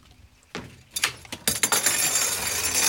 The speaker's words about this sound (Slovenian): Opremo samokolnice zložimo na čoln,